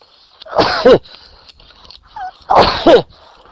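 Two loud sneezes from a person, each a sharp breathy burst with a short voiced tail, separated by about two seconds of near silence.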